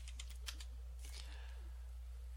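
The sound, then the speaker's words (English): Keystrokes on a computer keyboard: a quick run of faint, crisp clicks, then a second short burst, over a steady low hum. “And I'm not typing correctly here.”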